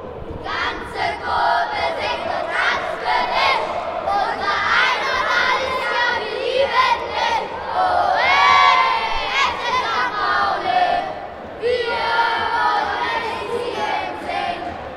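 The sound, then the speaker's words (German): Football crowd at the Millerntor-Stadion during an FC St. Pauli match: a loud, continuous roar of shouting and cheering, with high-pitched voices and repeated surges of yelling. “Dort ist es aber genauso laut. Millerntor-Stadion. Da habe ich auf jeden Fall noch nie ein leises Spiel gesehen.”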